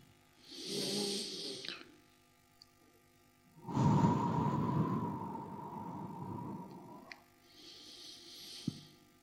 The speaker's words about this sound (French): Et avec la main, je vais vous donner ce rythme-là pour que nous puissions faire ces amples respirations. On va faire ça pendant une ou deux minutes.